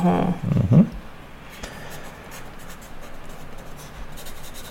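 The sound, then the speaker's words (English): A pen scratches on paper with soft, irregular strokes, faint and ongoing, after a short voiced sound at the start. “She seems to be writing.”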